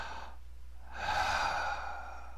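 A deep breath taken during a guided meditation: a short, soft breathy rush, a brief pause, then a longer, louder airy breath that fades slightly near the end.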